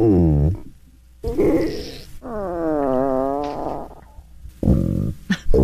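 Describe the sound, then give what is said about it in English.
Stomach growling in several loud gurgling bursts, some tonal and wavering like a drawn-out groan, others rougher and rumbling, separated by short gaps. “That wasn't a fart? No, oh, that's no. That's a stomach growling, actually.”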